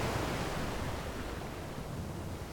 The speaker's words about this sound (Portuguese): o reverenciado benfeitor sentou-se conosco frente ao mar para descansar e refletir.